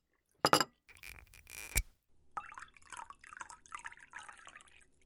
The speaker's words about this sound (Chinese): 来来，把红酒打开，倒一点酒嘛。